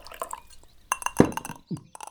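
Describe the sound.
Water being poured into a drinking glass: a few sharp, bright clinks of glass and brief splashy liquid sounds in quick succession, fairly loud and without voices.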